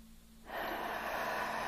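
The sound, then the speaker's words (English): A deep breath drawn in: after a brief quiet moment, a soft, airy rush of inhaling starts and holds steadily to the end, faint and without talk. “just focus on it and then just breathe in”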